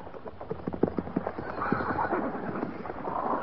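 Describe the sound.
Horses shuffle and stamp as cavalry troopers lead them out and mount up at Fort Laramie. Many irregular hoof clops and thuds sit over a steady rustling background, with some low voices.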